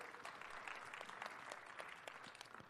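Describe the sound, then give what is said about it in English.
An audience applauds with dense, steady clapping that holds an even level from start to finish and stays fairly faint throughout. “go ahead and give Dolores a round of applause”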